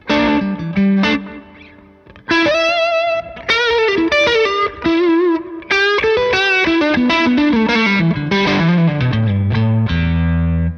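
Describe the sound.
Overdriven electric guitar through an amp, a Mad Professor Royal Blue drive pedal adding thickness: a phrase of loud, sustained, singing notes with vibrato, a brief pause early on, then lines that step lower toward the end.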